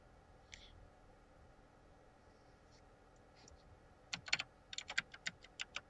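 Quick typing on a computer keyboard as someone looks something up: a short run of about a dozen sharp key clicks after a quiet stretch with a few faint taps. No talking.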